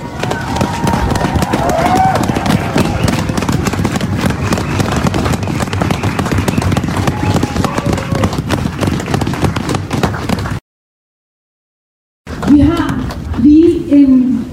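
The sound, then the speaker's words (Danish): An audience applauds a woman after her talk at an event, with loud, dense clapping that lasts about ten seconds before cutting off. After a short silence, a voice speaks. “Kan vi give hende en stor hånd?”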